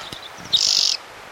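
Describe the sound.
A single bird calls: a few faint high chirps, then one loud, bright, rapid trill that holds steady briefly before stopping abruptly.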